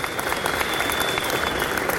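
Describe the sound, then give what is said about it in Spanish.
Applause from an audience at a public neighbourhood event in a sports hall, dense, steady clapping from many hands that holds at an even, loud level throughout. “Un aplauso para ellos, para todo el equipo de la administración.”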